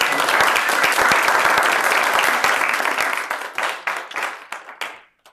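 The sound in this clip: An audience at a physics lecture on string theory applauds to welcome a speaker. Loud, dense clapping holds for about three seconds, then thins into scattered individual claps that fade out.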